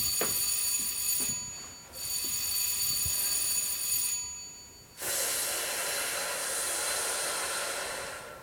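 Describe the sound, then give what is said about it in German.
A theatre bell sounds the third signal before a performance: a high, continuous electric ringing in long bursts broken by a few short pauses, fairly faint throughout. “Das war das dritte Klingelzeichen.”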